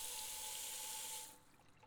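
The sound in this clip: Hot water runs from a tap at a home shampoo basin as a steady, bright hiss. It cuts off after about a second, leaving a faint trickle.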